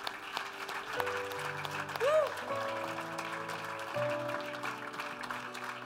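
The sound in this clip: Applause from an audience after a song: steady clapping throughout, with sustained tonal sounds and a voice mixed underneath.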